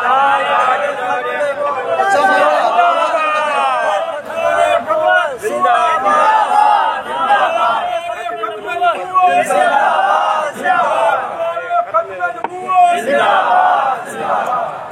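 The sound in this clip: A large crowd at a religious gathering chants the slogan Tajdar-e-Khatm-e-Nabuwwat, loud massed voices roaring continuously with repeated swells and shouted bursts throughout.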